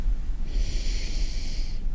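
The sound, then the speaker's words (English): A deep breath drawn in during a guided group relaxation exercise, a single steady airy hiss lasting just over a second over a low, rumbling background, with no talk. “So again, I'd like everybody to just go ahead and take a deep breath”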